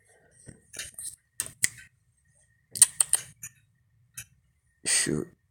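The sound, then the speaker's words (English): A porch swing creaks outside in the middle of the night, giving several short, irregular creaks and clicks separated by quiet gaps, with a longer, fuller creak at the end. “that's because of my swing, kind of swinging outside on the porch, middle of the night.”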